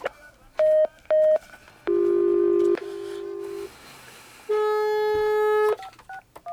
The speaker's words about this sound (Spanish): Bueno, mejor vamos a marcar, no nos cuelgues.